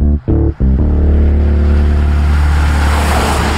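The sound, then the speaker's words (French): A Rolls-Royce Cullinan is being driven, its engine a loud low drone. The sound cuts out twice briefly at the very start, then runs steadily to the end. “Pendant que tu conduisais ton Rolls-Royce Cullinan dans la magnifique principauté de Mirabel”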